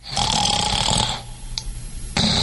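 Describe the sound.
Loud rasping snoring, a sustained rough snore with strong low rumble and buzzy overtones for about a second, a short quieter gap, then the next snore beginning, with no talking.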